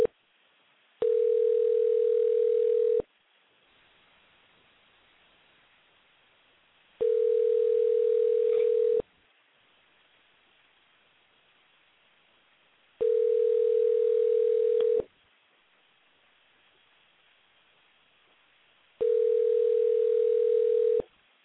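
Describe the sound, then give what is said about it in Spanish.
Telephone ringback tone while calling a guest: four steady two-second rings, each followed by a longer silent gap, with no voices. “Vamos a marcar en este momento a Mike Ruiz.”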